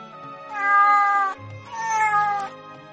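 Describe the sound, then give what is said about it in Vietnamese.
Two sand cats give two clear meows in succession, each about a second long and tonal, with a brief pause between them. No other sound competes with them. “Khiến Hà Ninh ngạc nhiên là hai con mèo cát tròn vo thế nhưng chủ động lại gần y, dùng thân mình cọ cọ chân y, híp mắt phát ra tiếng kêu mèo mèo.”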